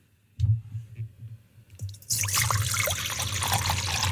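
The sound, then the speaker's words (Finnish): Liquid is poured into a glass. A few faint knocks over a low hum come first, then a steady, bright splashing trickle starts partway through and runs to the end. “Joo, kaadan, kaadan. Sitten tulee tää toinen.”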